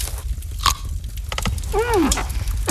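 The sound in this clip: Crunchy radishes being bitten and chewed, with a few sharp, crisp crunches spread across the moment over a low background rumble.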